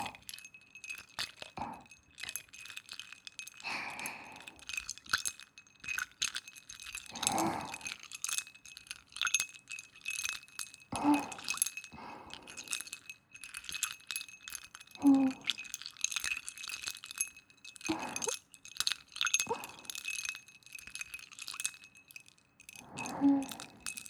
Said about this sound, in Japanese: 氷の音って透き通ってて綺麗だよね。